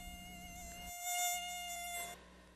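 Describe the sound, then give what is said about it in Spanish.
A mosquito buzzes at night: a faint, thin, steady whine holding one pitch for about two seconds before cutting out. “Desde un mosquito en medio de la noche,”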